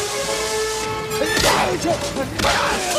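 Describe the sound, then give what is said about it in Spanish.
An iron bucket strikes a giant during a fight, landing as two loud swishing thwacks with heavy thuds, spaced about a second apart over sustained background tones. “Willy entrega un cubo de hierro a Indiana. ¡Toma! ¡Prueba con esto! Indiana golpea al gigantón con el cubo.”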